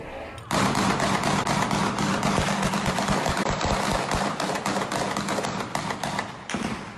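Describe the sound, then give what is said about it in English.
Automatic weapons fire a long burst of shots in a housing project community in San Juan, Puerto Rico, with many rapid, closely spaced loud cracks running almost unbroken for about six seconds before cutting off. “What seemed like an endless burst of shots fired by hitmen with automatic weapons shook this community in San Juan, Puerto Rico.”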